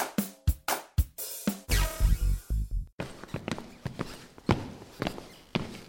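Footsteps walking into a parliament building, a series of sharp, hard heel strikes spaced unevenly, loud and clear with no talking over them.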